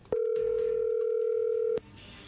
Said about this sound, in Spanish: Bueno, a ver, ahí se está marcando, ahí entró la llamada.